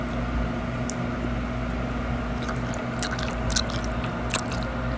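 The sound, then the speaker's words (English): Gum chewing, heard as faint, wet, irregular clicks and squishes, mostly in the second half, over a steady low background hum. “that's my gum ASMR.”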